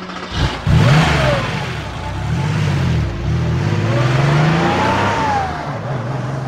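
A car engine revs as a steady, loud, mid-pitched drone that repeatedly rises and falls in pitch as the engine accelerates, with no voices.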